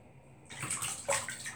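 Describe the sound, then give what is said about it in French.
Water sloshes faintly in a bathtub holding only a little water as someone shifts while bathing. Soft swishing begins after a brief quiet start, with one slightly stronger splash partway through. “Je suis encore dans mon bain.”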